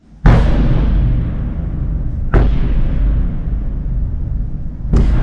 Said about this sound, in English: We start in Ukraine and the all-too-familiar sound of Russian bombardment in the capital, Kyiv, overnight.